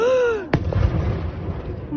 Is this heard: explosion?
yes